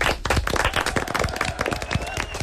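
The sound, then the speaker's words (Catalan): Applause from a group during a children's and teenagers' quiz after a correct answer: many sharp, overlapping claps form a dense, steady patter for the whole moment, fairly loud and without talk. “Un aplaudiment.”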